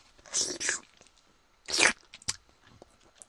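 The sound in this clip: Food being bitten and chewed, with a few loud, crunchy bursts of biting followed by quieter, scattered chewing clicks between pauses.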